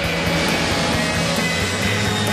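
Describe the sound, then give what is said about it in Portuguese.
An airplane flying past as a sound effect gives a steady, broad roar that stays loud and even for the whole two seconds, with a low droning undertone and no voices. “Fique ligado no Estádio 97 e anote quantas vezes você ouve passar o Avião do Estádio 97.”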